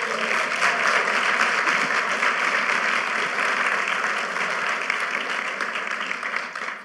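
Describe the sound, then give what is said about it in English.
Applause from a church audience welcoming a couple, a dense, steady clatter of many hands that carries on without a break and eases slightly at the end. “let's give John and Kim a welcome, please”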